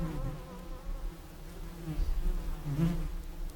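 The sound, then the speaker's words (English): Flies buzz around the empty eye cavity of a dead horse lying on a leafy forest floor, a continuous low, wavering drone that swells and fades slightly without stopping. “Flies buzz around the empty eye cavity of the dead horse on the leafy forest floor.”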